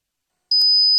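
A high, thin steady tone imitating ringing in the ears starts abruptly after half a second of silence and holds to the end, broken by a couple of faint clicks.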